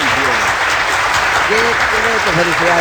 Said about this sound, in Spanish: Uy, Gondi, aplausos para Gondi, muy bien, qué excelente.